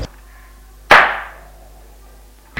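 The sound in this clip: A handgun held to the temple fires one sharp, loud shot beside a lake at night. The crack has a quickly fading tail and is heard alone, with no talk.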